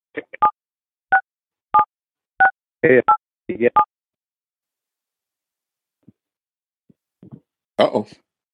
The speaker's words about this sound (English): I heard some, sounded like some dialing, but I think we're good.